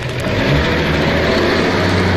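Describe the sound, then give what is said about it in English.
A limousine accelerates across an evacuated base, its engine producing a loud, steady low roar with a broad rushing noise that holds throughout. “As the limousine quickly accelerates across the evacuated base, Oscar Goldman”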